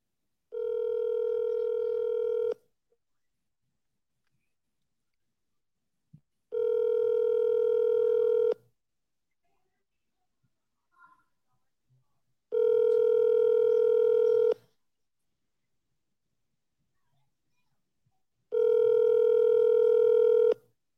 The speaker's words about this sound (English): If you don't dial twice, you didn't dial once. That's all there is to it. Double dial is the new single dial.